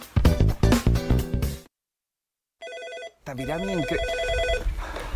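An office telephone rings in one short electronic burst, a bright, steady warble that starts after a brief silence and is set between stretches of music.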